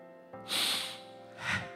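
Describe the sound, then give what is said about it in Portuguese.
A deep breath drawn in: a long, airy, breathy inhale followed by a second, shorter breath, soft and alone with no talk. “Respira fundo.”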